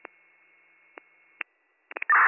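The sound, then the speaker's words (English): Radio dispatch cancellation tones: a faint steady tone with a few short blips, then a quick cluster of sharper pulses and a loud burst of noise at the end. “Send out cancellation tones then, because our text went off for a shorter route.”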